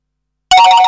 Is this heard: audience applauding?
no